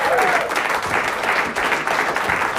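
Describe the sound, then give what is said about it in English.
Audience applause greets a show host returning to the stage: a dense, steady wash of clapping that holds at an even level throughout. “Welcome back. Give it up for Emma.”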